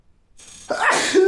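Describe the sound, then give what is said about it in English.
A single loud human sneeze: a faint breathy intake gives way to a sharp, noisy burst that ends in a short voiced tail. “that was a sneeze break”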